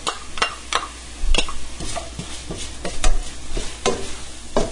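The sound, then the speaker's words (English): Garlic hits softened onions sizzling in a pan over medium heat and is stirred with a wooden spoon: a steady frying hiss under many quick scraping strokes, moderately loud, with no talking. “My onions have gotten pretty limp and soft, so I'm going to put in my garlic.”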